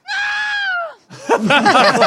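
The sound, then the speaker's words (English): A wombat screams: one loud, high, harmonic cry is held steady, then drops sharply in pitch. A burst of rapid, wavering vocal sounds follows. “What the hell is that? That's what it's supposed to be. It's a wombat.”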